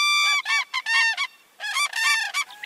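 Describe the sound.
Common cranes migrating from northern mountains to rest along the Indus River give loud, harmonic trumpeting calls. They come in a rapid series in two bursts with a brief pause between them, and no voices.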